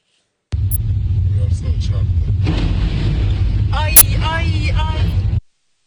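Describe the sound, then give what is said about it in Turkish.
A speeding dump truck with its bed raised crashes into an overpass and the overpass collapses: a sudden, loud, sustained rumble of roughly five seconds, with one sharp bang near the end before it cuts off. “Damperi açık bir şekilde hızla ilerleyen kamyon üst geçide çarptı. Çarpmanın etkisiyle üst geçit adeta yerle bir oldu.”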